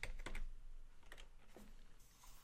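Keystrokes on a computer keyboard as text is typed into a game editor: a few quick clicks bunched at the start, then some scattered taps, fairly faint over a steady hiss.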